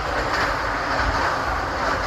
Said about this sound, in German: Eine bonbonfarbene U-Bahn-Fahrt durch Hamburg.